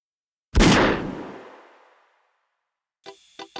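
A single gunshot from a weapon fired in a dramatized scene on a stone staircase: a loud, sharp blast with a long decaying tail, then silence and a few brief clipped sounds.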